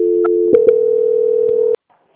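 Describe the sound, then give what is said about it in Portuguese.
Steady telephone tone while a call is transferred: one continuous mid-pitched hum with a few faint clicks, holding loud and even before stopping abruptly into silence. “Só um minutinho que eu vou transferir para a Michelle, tá? Transferência.”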